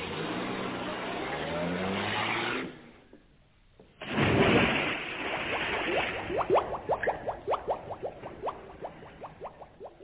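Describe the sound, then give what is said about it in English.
A car engine roars to life and drives off after a moment of talk and a brief quiet, its sound settling into a fast, regular pulsing as it pulls away. “Much too far to walk. Everybody in the car, we'll drive down.”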